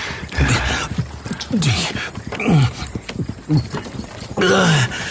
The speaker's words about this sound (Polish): Psiakrew, jak ten wóz trzęsie.